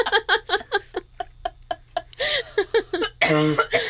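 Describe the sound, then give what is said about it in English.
A person coughing and choking: a rapid run of short, strained vocal bursts, followed by a harsher, louder noisy cough burst near the end. “Oh my God, I'm choking to death over here. Do you guys need a cough drop?”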